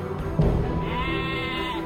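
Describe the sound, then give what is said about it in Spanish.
One sheep bleats, a weak, thirsty animal apart from its flock: a single drawn-out, wavering nasal cry rich in harmonics that begins sharply and trails off, alone without voices. “Mira. Una oveja agoniza apartada del grupo.”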